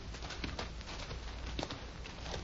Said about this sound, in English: Lieutenant, Bailey's taking your horse.